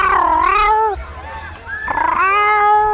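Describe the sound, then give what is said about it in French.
A cat meows outdoors in a park, giving two drawn-out, wavering caterwaul-like cries with a short pause between them. The cries are loud and tonal. “C'est le bruit d'un chat.”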